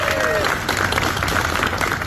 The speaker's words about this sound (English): left the hospital Monday to heartfelt applause